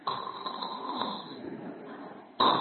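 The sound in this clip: A voice imitating a person snoring: one sustained rasping, rattling breath that ends in an abrupt louder burst.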